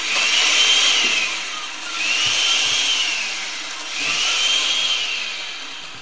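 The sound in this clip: An electric blender whirs loudly as it blends peeled, cubed apples with squeezed lemon juice. It runs in three surging pulses, and its high whine swells and eases in each.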